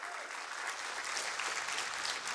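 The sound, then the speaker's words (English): Audience applause, a fairly soft but dense bed of many hands clapping, runs evenly without a break for the whole short stretch. “Quit clapping for her, all right?”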